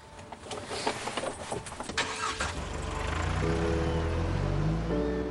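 A car engine starting and the car driving off: a few brief knocks and clatters come first, then a low engine rumble builds steadily and holds in a smooth, even drone.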